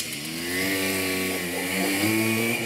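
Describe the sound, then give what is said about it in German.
A moped engine drones steadily while being ridden, giving a continuous buzzing hum with a slightly wavering pitch and no voices over it. “Da kann ich halt an der Stelle einfach mit dem Moped fahren.”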